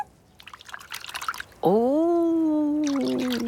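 Watery trickling and bubbly splashing sounds of a huge puddle, then a sustained tonal sound that swoops upward and holds steady while the light watery patter returns underneath.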